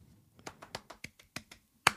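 One person claps alone, giving a short run of sparse, uneven single claps followed by a louder final clap, with no voices over them.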